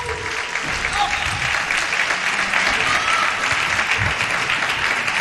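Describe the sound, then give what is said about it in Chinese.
Loud, continuous cheering and applause fill a table tennis arena, raised by spectators and team support staff. The dense crowd roar holds steady throughout, with voices talking over it. “包括我们的这个队里的保障人员啊，这个加油的气势在场馆里也是非常响亮。”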